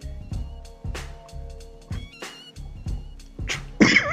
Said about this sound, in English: Started coughing.